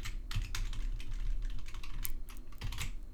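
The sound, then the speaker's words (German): Fingers type on a computer keyboard in the Vim editor's insert mode, producing a quick, continuous run of many light key clicks at an even level. “und Fail eintippen. Noch sind wir im Insert Mode.”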